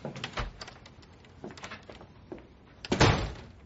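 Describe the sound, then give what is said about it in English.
A door opening, heard as a few dull knocks and shuffles followed by a louder, heavier thunk near the end, with no voices. “Let me get the door.”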